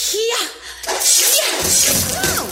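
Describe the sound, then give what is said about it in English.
Sword slashes hacking into a tank in a video game, with sharp metallic swishes and whooshing strikes, loud and busy, while people talk over the action. “She's on top of it, making like a can opener with that sword of hers.”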